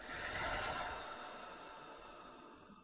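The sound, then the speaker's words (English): A slow, deep breath, drawn in through the nose and let out through the mouth during a guided breathing exercise; a soft, faint, airy exhale rises gently, then fades away on its own. “Take a slow, deep breath in through your nose and out through your mouth.”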